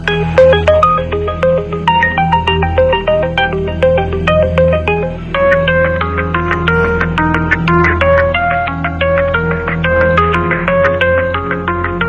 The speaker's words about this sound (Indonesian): Klunting-klunting HP kumuni